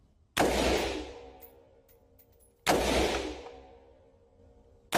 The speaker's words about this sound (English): Now those are single shots. If I wanted to fire this on full semi-automatic, all I do is keep firing.